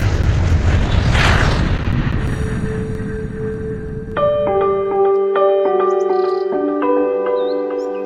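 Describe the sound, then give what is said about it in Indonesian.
An airplane flying sound effect: a loud, broad jet whoosh that swells and then fades over several seconds, followed by a run of short, bright melodic chime notes. “Oke, siap ya? Kita terbang langsung, yuk! Kita ke Sumba!”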